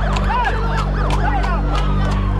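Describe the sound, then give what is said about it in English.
Sirens wail across a city, Washington, D.C., with several overlapping rising-and-falling tones sweeping loudly over a steady low hum throughout. “Sirens are going off around this city like you cannot believe”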